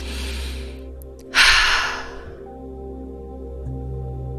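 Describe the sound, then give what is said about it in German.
One deep, forceful breath rushes out as a loud, airy burst that fades over about a second, heard over a soft, sustained tonal music bed. “Atme dabei tief und kraftvoll ein und aus.”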